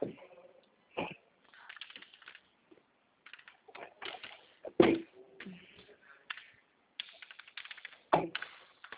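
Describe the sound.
Computer keyboard shortcut keys pressed, along with mouse clicks: a sparse, faint series of soft taps broken up by a few sharper, louder clicks, with short pauses in between.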